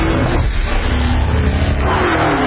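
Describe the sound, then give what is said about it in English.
A supercharged V8 in a Dodge sedan roars with a dense, loud, continuous growl that holds steady throughout without letting up. “If you think putting a supercharged V8 in a sedan is crazy or just plain wrong, well, we've got news for you.”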